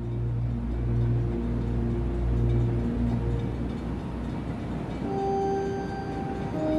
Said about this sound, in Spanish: Y así, el tren va suavemente llegando a una estación